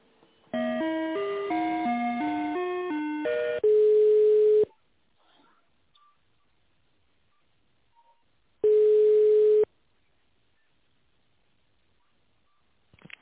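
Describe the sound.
Electronic telephone tones play while a business call is transferred: a short stepped melody of beeps, then two long steady ringback tones separated by several seconds of silence.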